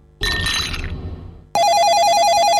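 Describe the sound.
A telephone rings for a job-offer call: a steady, bright electronic trilling tone fills the second half, following a brief burst of clattering noise.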